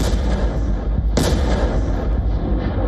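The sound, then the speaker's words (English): A massive blast from a Soviet-era FAB-3000 bomb of about three tons: a sharp crack bursts out near the middle over a loud, unbroken, rumbling roar that stays heavy from start to finish. “This is the Fab 3000. A Soviet-era bomb weighing around 3 tons that Russia has brought back with a deadly upgrade.”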